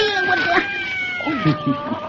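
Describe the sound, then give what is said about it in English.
A cat meowing outside a barn at night, giving a few drawn-out, wavering yowls that rise and fall in pitch, with a steady high tone running underneath throughout. “that cat scared me. I guess you scared him, too. Look at him run.”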